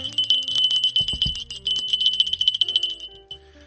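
A small bell rings rapidly, with many quick bright strikes that blend into a continuous jingling over nearly four seconds. A few deeper thuds sound partway through.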